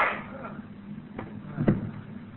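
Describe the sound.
A gunshot in a radio drama: one sharp, muffled bang stands out above a thin, steady hiss, with a fainter click shortly before it.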